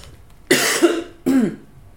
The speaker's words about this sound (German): Einmal husten.